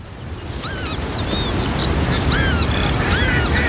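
Northern lapwings tending two chicks give several sharp, wheezy calls that sweep up and down in pitch, heard over a steady, rushing background noise.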